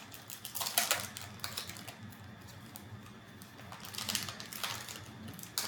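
A snack cake wrapper, like that of a moon pie, crinkles and rips open in faint bursts of crisp plastic rustling, with two louder flurries among quieter crackles.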